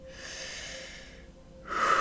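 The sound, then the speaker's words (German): A deep, deliberate breath in during a guided breathing exercise: soft airy breathing that swells into a louder, rushing intake of air near the end. “Nimm nun zwei oder drei tiefe, bewusste Atemzüge. Atme ein”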